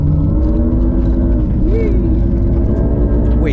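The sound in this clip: A car engine drones loudly as the car accelerates and slides sideways on a gravel road. The rumble holds steady with layered harmonic tones and a brief pitch bump midway.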